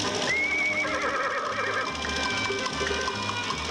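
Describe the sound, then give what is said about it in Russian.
Horse neighing and walking after a departing biplane: a brief, high whinny rings out early over a steady layer of background noise with a low, regular pulsing beneath it. “Конь Генри медленно идет за удаляющимся бипланом.”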